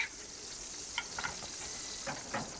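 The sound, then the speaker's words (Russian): Cottage cheese pancakes (syrniki) frying in a pan: a faint, steady sizzle broken by a few soft taps and pops. “Зоя переворачивает сырник на сковородке.”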